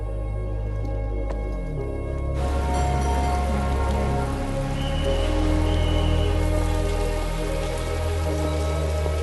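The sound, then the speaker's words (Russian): Rain falls in a steady, dense patter that continues evenly throughout, a constant hiss of drops with no break or pause. “Дождь.”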